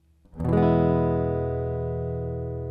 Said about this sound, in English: Here's a first position E chord.